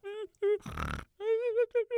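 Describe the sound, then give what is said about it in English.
A voice imitates a little pig grunting: short voiced grunts and squeal-like tones, a noisy snorting burst in the middle, then several more tonal grunts in quick succession. “That little pig is hiding from me.”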